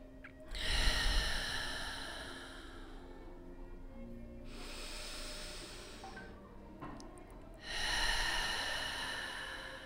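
Deep breaths drawn in and exhaled through the mouth during a guided relaxation exercise: a few long, airy rushes of breath, loud and unaccompanied, separated by short quieter pauses.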